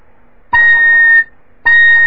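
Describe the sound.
A fife sounds its middle C sharp, started with harder tonguing: a bright, piercing tone held for about three quarters of a second, then, after a short pause, a second note that is cut off at the end.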